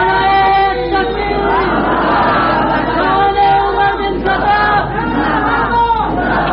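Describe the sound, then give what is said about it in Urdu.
A crowd of early Muslim companions loudly shouts the Takbir chant in a dramatized scene, many voices blending into a sustained, chanted roar that holds strong for the whole clip. “حضرت عمر فاروق کا یہ نعرہ سن کر صحابہ کرام نعرہ تکبیر بلند کرتے ہیں.”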